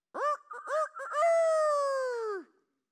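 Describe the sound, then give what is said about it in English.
A rooster crows: a few short choppy notes lead into one long, loud, sustained call that drops in pitch at the very end, heard alone. “The rooster goes,”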